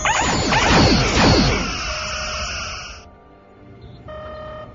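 Spaceship weapons fire in a science fiction audio drama: a loud burst of overlapping, downward-sweeping laser zaps, then a sustained high electronic whine that cuts off abruptly, followed by a quieter humming tone.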